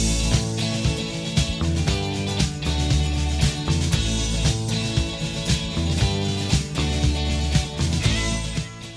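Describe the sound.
A rock song plays loudly and continuously, driven by steady drums, bass and electric guitar, with no talk over it.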